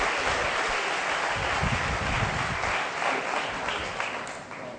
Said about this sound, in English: All right, come on, put your hands together, church.